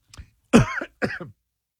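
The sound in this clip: Coughing from something stuck in the throat: a faint catch, then two harsh, forceful coughs in quick succession, fairly loud against silence.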